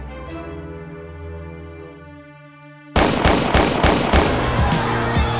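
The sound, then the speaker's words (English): Gunshots from a pair of 9mm pistols fired in a recording studio hallway, several sharp, loud bursts in quick irregular succession that break in abruptly after a sustained tonal drone. “The shots came as soon as he entered the hallway at Quad Studios, five of them, from the pair of 9mm carried by the roughnecks shaking him down.”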